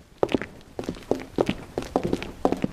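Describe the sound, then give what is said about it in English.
Footsteps of a few people walking up to a body at a police investigation scene in a mystery drama: a run of moderately loud, uneven steps with some scuffing between them, and no talk. “Shepard and Stone and the police officer walk up to the body.”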